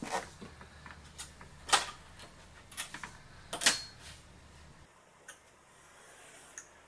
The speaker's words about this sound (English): I am cutting the base label using an X-Acto blade, which only takes a few minutes.